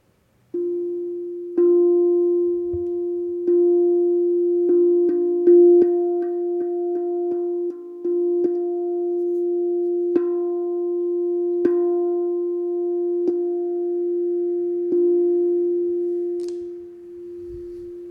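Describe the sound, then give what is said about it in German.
A musical F tone is played during a heart-chakra meditation and held as a steady, pure sustained hum with faint overtones for the whole stretch. A few brief clicks or re-attacks punctuate it, and no one speaks. “Und ich spiele den Ton F.”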